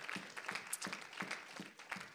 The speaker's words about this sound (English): can we just give the Lord a hand clap of praise this morning?